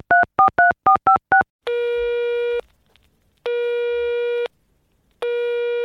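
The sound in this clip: Telephone line tones from a late-night call: six quick two-note keypad beeps, then three long, steady electronic tones separated by short silences.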